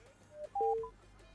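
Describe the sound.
Telephone keypad dialing tones as a call is placed: a few short, pure electronic beeps in quick succession, fairly faint over a low steady hum.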